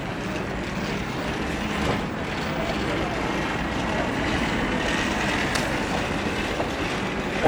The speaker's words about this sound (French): Là, vous entendez un son international. Les valises avec des roulettes.